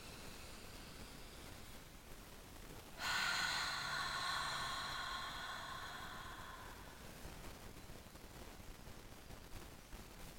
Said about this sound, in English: Let's take a nice deep breath in through our nose.